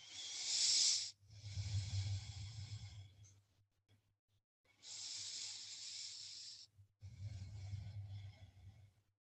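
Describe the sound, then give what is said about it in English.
Slow, hissing breaths taken while holding a yoga pose: a few long inhales and exhales, airy and soft, separated by brief pauses. “Breath here for three.”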